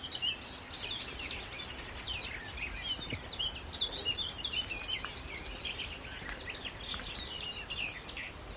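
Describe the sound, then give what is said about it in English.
A garden warbler sings on Sugar Loaf mountain in a scratchy, rapid, long-winded warble of high chirping notes that runs without pause over a low background rumble. “I think the garden warbler is a bit like the black cap. There he is, he's just scratching away here. But that's it, he's scratchy. And a bit more long-winded.”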